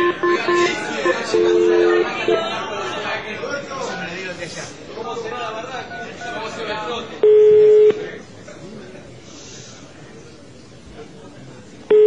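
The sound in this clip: Telephone keypad tones as a number is dialed: a few steady electronic beeps, one held noticeably longer, sound over ongoing talk and background noise.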